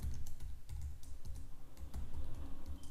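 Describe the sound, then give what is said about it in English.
Keys clatter as a password is typed on a computer keyboard, a run of many quick, irregular clicks, fairly quiet and with no talk. “So type some password here. I will type it also here.”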